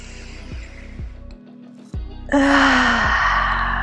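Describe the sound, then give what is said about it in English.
A deep breath is drawn in softly and then let out in a long, loud, breathy exhale over low, sustained musical tones. “let's just take a big breath in together.”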